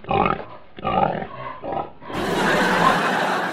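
Pig grunts and squeals from a wild boar loose on a university campus, a few rough, throaty bursts over the first two seconds, then a steady, loud, noisy rush.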